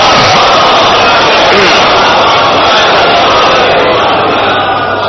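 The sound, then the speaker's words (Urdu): Large audience reciting salawat in unison at a religious gathering, a loud, continuous wall of chanting voices that stays dense and unbroken throughout. “سلوات بھیجے محمد والے محمد.”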